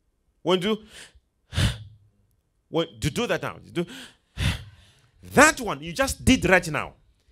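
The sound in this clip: A person exhales in a series of audible, breathy sighs, several carrying a soft voiced tone, separated by brief pauses of silence.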